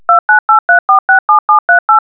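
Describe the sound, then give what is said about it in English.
Telephone keypad tones entering a code: ten short, evenly spaced two-note beeps in a quick, steady rhythm, loud and alone. “Please enter your 9-digit password. Note, it might be beneficial to you if you put your 9-digit code in the speed dial of your phone. Please enter your code now.”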